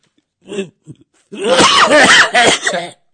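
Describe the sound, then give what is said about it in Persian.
Coughing during a comedy sketch: two short coughs, then a longer, loud, strained bout of rough coughing with throat sounds that trails off near the end. “کرونا داری نه کرونا ندارم اعصابم که خورد میشه سرفم میگیره”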